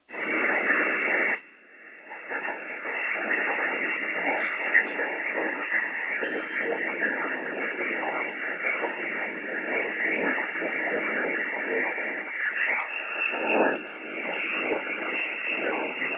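Steady radio static and white-noise hiss between off-frequency stations, processed by digital noise reduction set to 15, giving a watery, warbling texture; the hiss briefly drops out early on and dips again near the end.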